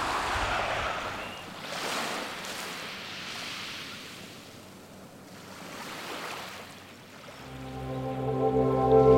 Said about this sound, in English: From the beach at Deception Pass